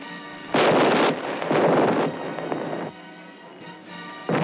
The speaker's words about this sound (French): Pointez toutes les bouches à feu sur le navire du gouverneur. Toutes voiles dehors et gardez le cap que je vous ai donné. Les pièces sont pointées. Donne l'ordre de tirer.